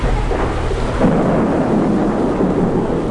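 A night thunderstorm heard as a deep, continuous rumble of thunder over steady rain. It stays loud and unbroken from start to finish.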